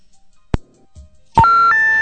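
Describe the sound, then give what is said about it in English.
A call-in phone line plays its automatic on-air signal, a short sequence of three steady electronic tones that step upward in pitch. A single sharp click comes earlier, followed by a quiet pause before the loud tones begin. “if you hear that doo-doo-doo noise... That it's not that you have the wrong number or disconnected number. It does that automatically to let you know that you're on the air.”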